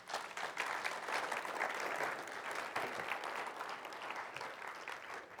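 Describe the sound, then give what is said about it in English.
Audience applause welcomes a guest speaker at a church rededication service. The clapping is steady and even, moderately soft, and continues without a break for about five seconds. “Let's go ahead and give her a hand.”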